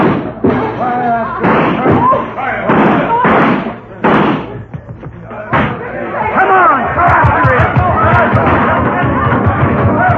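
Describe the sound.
Gunshots from a bandit shooting out the lights in a crowded parlor ring out as several sharp, loud bangs, followed by a dense clamor of a crowd scrambling, with many thumps and knocks.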